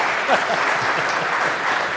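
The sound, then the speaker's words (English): Audience applause at a live show: a steady, dense wash of clapping held at an even level for the whole stretch, with faint voices murmuring underneath. “Round of applause.”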